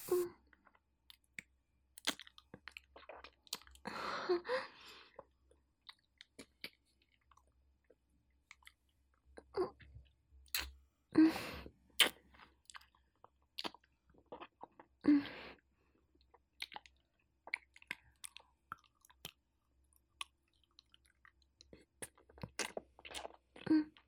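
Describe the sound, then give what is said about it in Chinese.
Sweet, sticky food is chewed as it grows harder: many irregular, faint wet clicks and small crunches in scattered bursts, with quiet gaps between them and no talk. “越吃越硬。还有黏黏的东西”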